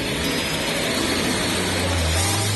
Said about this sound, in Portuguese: Vamos ligar a máquina, meu querido Jovem Mancebo. É 1.6, meu filho.